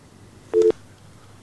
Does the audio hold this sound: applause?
no